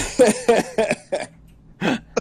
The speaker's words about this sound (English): I'm tired of coughing.